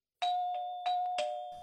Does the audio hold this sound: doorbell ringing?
yes

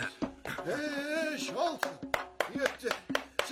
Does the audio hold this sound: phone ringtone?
no

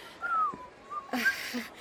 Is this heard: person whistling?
yes

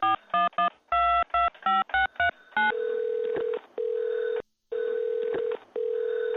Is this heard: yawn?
no

